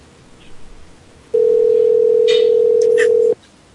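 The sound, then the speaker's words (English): Telephone ringing: one steady electronic ring tone lasting about two seconds, loud and unbroken, with only faint background noise before and after. “and the phone rings.”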